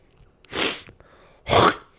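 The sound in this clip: Coughing up mucus: two harsh, breathy coughs separated by a short pause, with the second slightly stronger and a faint click between them.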